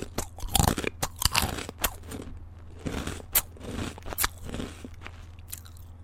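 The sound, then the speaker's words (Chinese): Crisp crunching of a potato chip being bitten and chewed, a quick run of sharp, irregular crackly bites that fades into softer chewing crunches. “我吃块薯片。”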